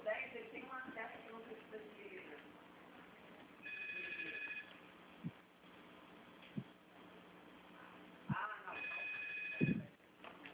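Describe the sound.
A telephone rings in two bursts of high, buzzy trilling tones a few seconds apart. The rings are fairly faint, and people talk between and around them.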